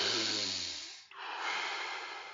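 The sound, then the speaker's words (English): Deep breathing in and out, done as Wim Hof method breathing: one long, loud, hissing inhale that fades, a brief break, then a long, steady, breathy exhale. “Breathe in and letting go. Breathe in. Breathe out.”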